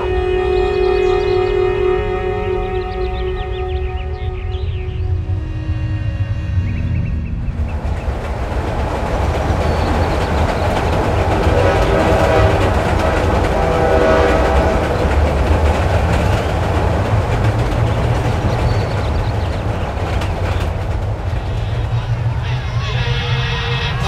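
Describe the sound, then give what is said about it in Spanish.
A steam train from a 1958 presidential campaign runs on rails with a steady, loud rumbling and clattering, while a murmur of crowd voices runs beneath it throughout. “saliendo a campaña, recorriendo todo el sur en el tren de la victoria. El tren de la victoria, claro.”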